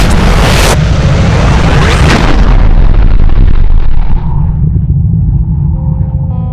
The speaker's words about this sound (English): It was a blast so hot that it burned every eyeball, instantly fusing it to its socket